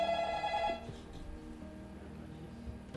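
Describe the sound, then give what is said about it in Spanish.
Telephone ringing with an incoming call: a bright, tonal electronic ring sounds for under a second at the start, then cuts off and leaves only a low, murmuring background. “En este momento estamos recibiendo llamada telefónica.”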